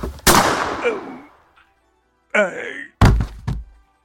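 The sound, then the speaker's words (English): Gunshots in a radio drama: a sharp blast with a long fading tail, then a brief moaning cry, followed by two more hard, thudding shots. “Oh, my word, you gunned down the chief.”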